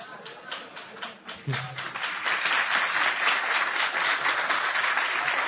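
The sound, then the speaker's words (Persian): An audience clapping at a speech, starting as scattered claps and swelling into steady, dense applause that continues to the end. “شما دست زدید اینا.”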